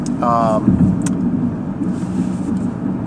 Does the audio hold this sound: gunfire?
no

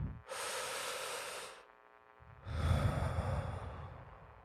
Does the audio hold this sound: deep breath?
yes

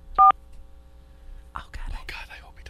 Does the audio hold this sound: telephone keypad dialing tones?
yes

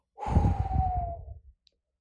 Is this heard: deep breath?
yes

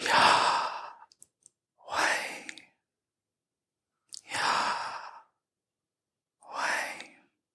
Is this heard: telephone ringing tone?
no

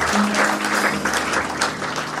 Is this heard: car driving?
no

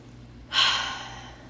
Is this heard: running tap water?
no

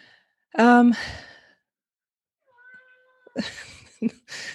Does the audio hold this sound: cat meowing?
yes

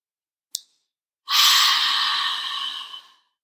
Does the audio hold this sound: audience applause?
no

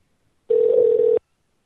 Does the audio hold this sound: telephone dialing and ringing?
yes

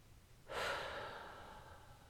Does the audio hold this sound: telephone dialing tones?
no

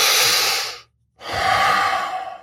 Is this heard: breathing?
yes

